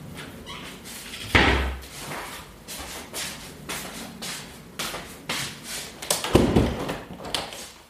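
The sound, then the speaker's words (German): A window being shut gives two heavy thuds, one early and one near the end, with lighter taps and handling knocks in between. “jetzt das Fenster zumachen.”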